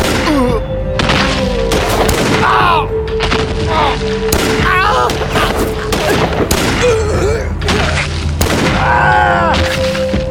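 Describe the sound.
Gunfire rings out in a gunfight between a gang and their opponents: many sharp, loud shots crack in an irregular fusillade, while voices shout and cry out between the blasts.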